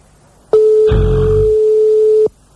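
A telephone line tone sounds while a prank call is being placed, one unbroken mid-pitched beep lasting just under two seconds, with a brief low muffled sound partway through.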